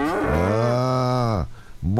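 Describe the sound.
A cow moos loudly during morning milking in the mountains: one long, low, harmonic moo, then a short gap before a second moo starts at the very end.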